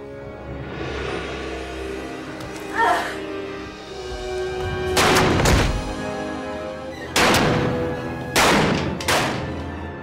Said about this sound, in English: Will's wife, Molly, comes into the room, grabs the gun, and takes the sucker out. Shoot him. Shoot him.